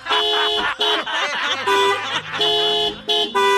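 Car horn honking in a rapid string of loud, blaring blasts separated by short breaks, bright and harmonically rich, with the pitch shifting between blasts.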